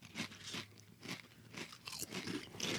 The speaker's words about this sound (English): think it's a pretty good chip. It's good, but I think I like the regular Ruffles more.